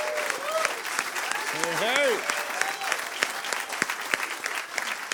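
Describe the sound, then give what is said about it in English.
Applause from an audience at a songwriters' showcase, welcoming a singer-songwriter to the stage: a steady wash of many hands clapping with a brief voiced cry near the middle, easing slightly toward the end. “So please put your hands together for Constantine Maroulis.”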